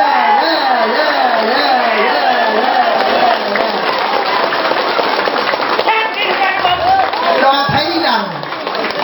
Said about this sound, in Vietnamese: Vỗ tay nữa.